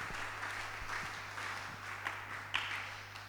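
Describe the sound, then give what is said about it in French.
An audience at a religious service applauds, a dense, even patter of many hands clapping that stays fairly faint throughout over a low, steady hum. “nous pouvons acclamer pour les frères”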